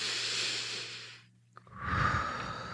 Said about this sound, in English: that's when you take a deep breath